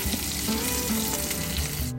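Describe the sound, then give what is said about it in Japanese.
A 100% beef hamburger patty frying in a pan: a steady, dense sizzle that stays loud and even throughout, with no talk. “ハンバーグの方は牛肉 100% のパテを焼いてます。”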